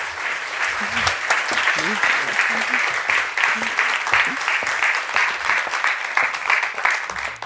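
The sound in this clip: Audience applause welcoming two speakers at a Los Angeles Public Library evening event on dolphins: dense, steady clapping that fills the whole stretch at an even level, with a few voices mixed in.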